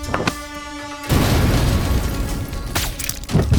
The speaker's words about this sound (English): Then, she threw a grenade that gave us enough cover to counterattack.